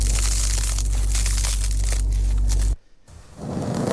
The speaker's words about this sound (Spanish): Es ese sonido del pan crujiendo, el sonido de cómo cortamos el pan